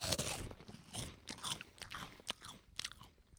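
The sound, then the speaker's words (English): Crunching bites of a Carolina Reaper hot chip, tasted as a snack: dense, crisp crackling and chewing that runs throughout at a fairly low level. “So this is the Carolina Reaper. Get the ASMR on. Scorching hot.”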